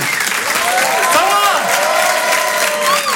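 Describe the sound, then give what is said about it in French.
Loud audience applause and cheering for a comedian taking the stage at a stand-up comedy show: dense, continuous clapping mixed with shouting, whooping voices throughout. “Je vous demande de l'applaudir très fort pour cet Open du Rire.”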